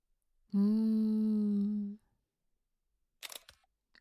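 A camera shutter fires once as a selfie is taken, a short crisp mechanical burst that follows a sustained steady tone and a stretch of silence.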